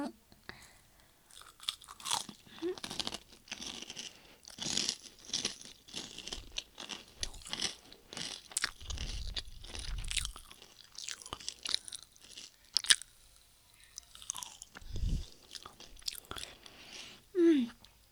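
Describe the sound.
A person chewing food, with many crisp crunches and moist chewing sounds in an irregular rhythm, and a soft voice speaking at times between the bites.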